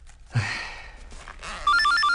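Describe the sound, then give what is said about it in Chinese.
A telephone rings with a rapid electronic ringtone of alternating bright tones. It starts abruptly near the end, after a short breathy burst and quiet rustling. “我接电话啊。 啊，接吧。”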